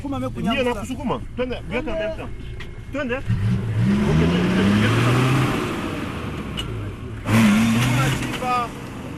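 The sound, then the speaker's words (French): A car engine revs as the vehicle pulls away after villagers lifted it back onto the road. The low droning rev swells under people talking. “On a quand même pu soulever et la voiture a pu prendre de l'élan”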